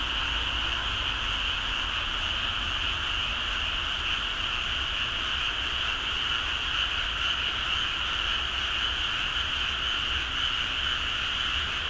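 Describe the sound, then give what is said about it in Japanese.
Frogs croak in a dense, continuous chorus: a steady, loud wall of overlapping calls with no pauses and no voices. “ではカエルの声をお聞きください。”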